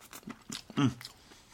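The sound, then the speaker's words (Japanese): Soft tofu being chewed, a few short, moist mouth sounds with one louder bite near the middle, all fairly faint. “うん、美味しいですね。もうちょっとこれ硬い方が良かったみたいです、豆腐が。”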